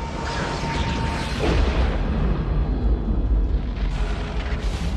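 A deep, rumbling explosion roar from an asteroid impact, a rock about six miles wide striking a lush planet, sustained and loud throughout with heavy low-end rumble and no clear separate bursts.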